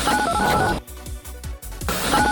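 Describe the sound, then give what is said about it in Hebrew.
Telephone dialing to call a shop: loud, steady electronic tones at the start and end, with a few short, sharp bursts between them. No voices are heard. “בוא נעשה את זה יותר פשוט. בוא נתקשר לחנות.”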